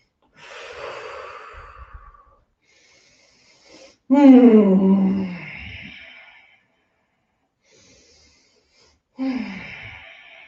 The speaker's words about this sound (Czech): Takže pojďme se třikrát nadechnout a vydechnout.